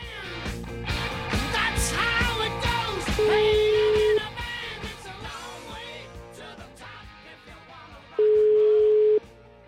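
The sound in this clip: Telephone tones sound as a call is being dialed: two long, steady, mid-pitched beeps several seconds apart, each standing out loudly over a busy background.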